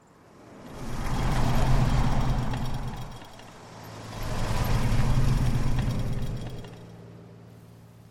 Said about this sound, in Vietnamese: Đến đoạn thông qua trạm trả phí tự động bằng hai pass, hai chiếc xe lướt vèo qua như đang rượt đuổi nhau.